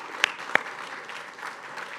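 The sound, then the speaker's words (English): Scattered applause for two departing council members at a gathering: two sharp, loud claps stand out near the start over soft, thin clapping that continues faintly. “So, yes, one more hand for them.”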